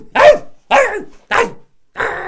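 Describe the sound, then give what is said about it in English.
A person's voice imitates a dog barking: four loud, rough barks in a steady rhythm, each dropping in pitch, the last one longer and more drawn out. “bites people, nibbles at their feet, barks at completely inopportune times. Yeah, yeah. Like the whole time we're, like, hanging out, and it just keeps being like,”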